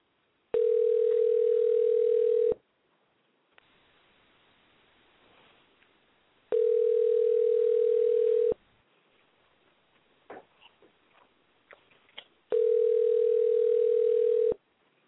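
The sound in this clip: Telephone ringback tone heard while calling someone for a phone interview, three steady, loud two-second tones separated by long gaps of faint background noise with a few small clicks.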